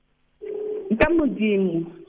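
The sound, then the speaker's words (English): A telephone dialing tone on a call line, a steady tone mixed with voice-like sounds and a sharp click partway through, holding a fairly even level throughout. “are you calling somebody there? Why does it sound like there's a dialing tone?”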